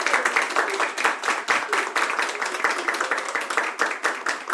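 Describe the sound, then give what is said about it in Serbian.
A live audience applauds as a performer greets the crowd at the start of a show. Dense, steady clapping continues throughout at moderate volume, with no one speaking over it. “Osjetio sam po aplauzu da je nešto neštima ovdje.”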